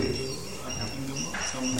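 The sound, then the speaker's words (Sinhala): A bird calls faintly in the background with soft cooing notes, mostly beneath a man's steady speech. “අන කුරුල්ලෙක් කෑ ගහනවා.”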